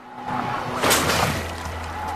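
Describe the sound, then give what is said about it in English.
A beaver swims to a trap and triggers it. A single loud burst of splashing water and a sharp snap rise out of softer sloshing, over a low steady tone. “he's tricked a beaver into breaking cover. It's swimming towards a trap. It climbs onto it, then triggers it.”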